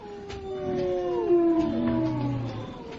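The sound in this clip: A hungry pack of animals howls outside a cave in winter, several long wavering cries overlapping at once, sustained and loud, with tones sliding gently downward through the middle.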